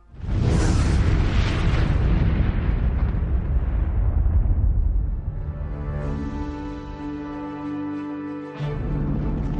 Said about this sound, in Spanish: A la orden aceleración, el combustible se incendió y el cohete principal explotó.